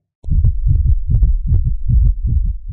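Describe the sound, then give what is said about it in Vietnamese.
A heartbeat effect represents a middle-aged man's heart pounding at its limit: low, thudding pulses in a rapid, steady rhythm, heard alone without any voices. “tim của người đàn ông trung niên cũng đã đập nhanh đến mức cực hạn.”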